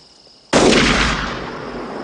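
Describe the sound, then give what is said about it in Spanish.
A single loud gunshot in a 1992 Western film: a sudden sharp crack breaking a quiet hum, then a long rumbling decay that fades slowly. “¿A quién rayos le disparará? ¿Quién demonios sabe?”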